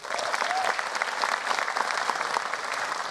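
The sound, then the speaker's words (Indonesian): Audience applause fills the whole stretch as a dense, steady wash of many hands clapping, loud and sustained without pause, with no talk over it. “teman-teman boleh minta tepuk tangannya?”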